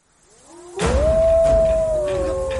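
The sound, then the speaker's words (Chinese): A wolf pack howling: one long howl rises and then holds a steady, clear tone. A fainter second tone joins near the end over a low, rumbling background. “狼群，是狼群”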